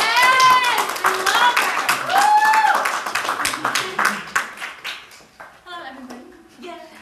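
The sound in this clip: An audience applauds and cheers to welcome a woman introduced to deliver a message. Loud clapping with whoops and voices fades gradually toward the end.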